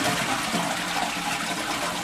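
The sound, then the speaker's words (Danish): A toilet flushes with a loud, steady rush of water that fills the whole moment with no voices over it. “Skal jeg lige trække ud for dig? Ja, det gør jeg.”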